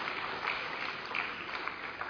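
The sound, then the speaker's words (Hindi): An audience applauds to welcome a guest, a soft, continuous patter of many hands clapping that stays faint and even throughout. “तो मैं दिल से भाई साहब का स्वागत करता हूं, आप सब भी ताली बजाकर भाई साहब का स्वागत करें।”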